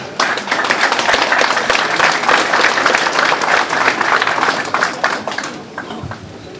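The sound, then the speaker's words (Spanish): Loud applause from a crowd at a municipal public accounts report in Achocalla: dense, rapid clapping holds strong for most of the stretch, then thins and softens near the end. “hermanos ejecutivos de la provincia de Murillo, un fuerte aplauso.”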